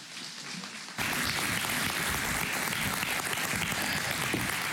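A church audience applauds to welcome a guest preacher. The dense, steady clapping bursts in abruptly after a quiet first second and holds at an even level until the end.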